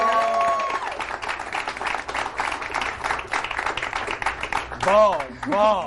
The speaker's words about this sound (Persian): به افتخار طلا گلزار. یه دست بزن.